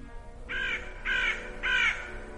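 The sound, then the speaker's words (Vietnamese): A crow caws mournfully in a dark hospital hallway, giving three harsh, evenly spaced caws of equal length, each moderately loud over a low background hum. “bệnh viện Kim Hồng, từ đâu đó vang lên tiếng quạ kêu ai oán”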